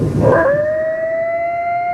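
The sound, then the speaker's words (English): Coyote howl from a pack squatting in a partially framed building at a stalled construction site: a brief noisy burst, then one long, steady, high-pitched wail with a fainter overtone that holds level to the end. “A pack of coyotes is squatting in a partially framed building at the site of a stalled construction project in West Hollywood. Video posted online shows the canines on various levels of the building making that noise. Their howls and yips.”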